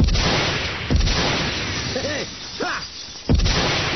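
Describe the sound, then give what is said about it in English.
Gunfire shooting at the crystal towers of an old city: a couple of heavy bursts break through a continuous rough roar of noise. “A few bullets will fix all those crystal towers.”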